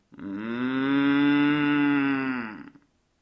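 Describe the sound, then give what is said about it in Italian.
A cow crossing a road gives one long, low moo that holds steady and loud for a couple of seconds. It stands alone, with no other sounds around it. “Vacca, vacca, vacca, vacche, vacche, un mare di vacche, un oceano di vacche che attraversano la strada e ti guardano”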